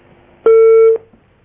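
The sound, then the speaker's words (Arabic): A single loud, steady electronic beep signals a phone call disconnecting. The mid-pitched tone holds for about half a second and then cuts off into near silence. “انفصل الاتصال.”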